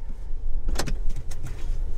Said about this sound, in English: We get out of the car and begin to walk toward his grandfather's house.